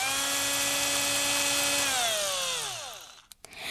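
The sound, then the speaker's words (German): A power screwdriver whines steadily while fastening a handle onto a wooden toolbox. Its pitch then drops as the motor winds down, and two short clicks follow. “Dann schraube ich jetzt den Griff fest.”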